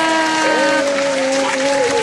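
Applause during a quiz game: steady, dense clapping through the whole short clip, with a sustained wavering tone running over it.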